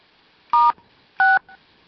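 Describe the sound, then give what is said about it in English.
Two telephone keypad tones, star then 6 pressed to mute a call: short, steady dual-pitched beeps spaced about half a second apart, alone on a quiet line. “Okay, which button do I push to mute? Star 6.”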